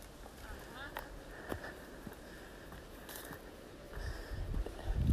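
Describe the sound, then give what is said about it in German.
Footsteps push through a hedge into a small wood: soft, irregular steps with rustling and light snapping, growing louder toward the end. “Ich gehe jetzt hier durch so eine Hecke durch. Ein kleines Wäldchen.”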